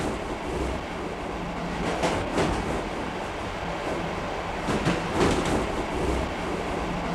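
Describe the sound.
A train runs on rails with a steady, continuous rumbling roar, swelling briefly louder with rattling surges partway through.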